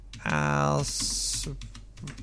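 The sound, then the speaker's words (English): Someone types on a computer keyboard, producing a quick run of light key clicks. A brief voiced sound and a hiss come first, and the clicks continue on their own. “Wait, I typed it right, right?”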